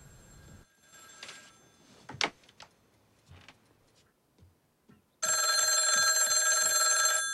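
A telephone bell rings loudly and continuously until the end. Before it, a few faint clicks and soft taps break a quiet stretch.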